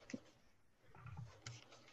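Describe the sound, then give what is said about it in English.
Dice rolled for a saving throw in a tabletop role-playing game, heard as a few short, light clicks and rattles spread across the moment, fairly quiet, with no voices over them. “I need dice.”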